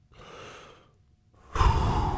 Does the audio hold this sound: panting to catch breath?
yes